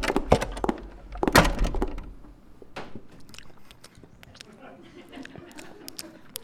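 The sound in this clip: Crisp bites into a croissant give a few crackling, crunchy bursts early on, then quieter, softer chewing continues.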